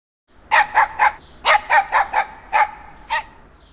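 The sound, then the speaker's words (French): A dog barks nine times in short, sharp yaps, mostly in quick pairs and threes with brief pauses, loud against a quiet background. “I can hear a dog.”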